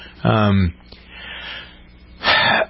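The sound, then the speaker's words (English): A speaker's short, sharp, audible intake of breath near the end, after a brief voiced sound and a quiet pause. “I take a breath here because I'm trying to organize my thoughts as well as I can without trying to sound provocative”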